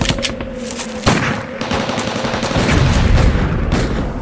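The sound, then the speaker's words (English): Heavy gunfire during a battle ambush: a dense, loud, continuous clatter of overlapping shots with a sharp burst early on, sustained throughout without pause. “We're taking heavy fire!”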